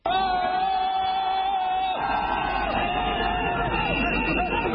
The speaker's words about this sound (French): Il a été accueilli et ovationné par des milliers de ses partisans, de l'aéroport de Dakar au siège de son parti, en passant par les grandes artères de la capitale sénégalaise.